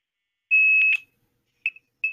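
A telephone call attempt gives one long, steady electronic tone, then two short high beeps, each sharp and clear against silence.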